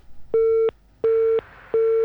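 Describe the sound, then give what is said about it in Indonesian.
A busy signal sounds after a phone-in caller's call was cut off. Three steady mid-pitched tone pulses with even gaps follow a moment of low line noise. “Terputus ya, menelpon tadi sayang sekali.”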